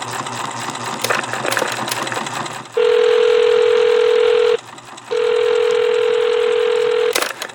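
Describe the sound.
Answering machine tones before a message: two long, steady electronic beeps, each lasting around two seconds with a short gap between them. Hiss and a few sharp clicks come before them.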